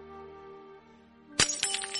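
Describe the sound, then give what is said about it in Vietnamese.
A porcelain teacup is thrown down and shatters on the ground. A soft sustained tone gives way to one sharp crash, followed by a few scattered clinks of fragments. “ném vỡ ly trà trên mặt đất”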